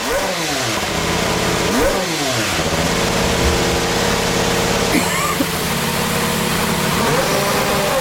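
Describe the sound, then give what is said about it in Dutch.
A new Honda Formula 1 engine, presented by the Toro Rosso team, runs loudly and continuously, its pitch surging up and down through several rapid revving bursts over a steady, buzzing drone. “Je wilde graag even met ons luisteren naar de nieuwe Honda motor.”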